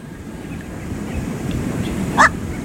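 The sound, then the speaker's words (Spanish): A black-crowned night heron gives a single short, barking squawk near the end, much like a small dog's yap. It cuts through steady rushing background noise. “Empieza el bloque y a ver qué pajarito tenemos hoy, a ver. Ajá. Me parece que es la garza bruja.”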